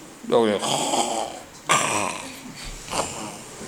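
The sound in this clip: A voice imitates snoring in three drawn-out, rasping bursts. Each is a loud, noisy snort-like breath that trails off into a throaty rattle before the next one.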